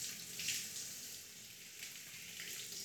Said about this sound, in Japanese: お湯で流しましょうか。お湯の温度はこれくらいですね。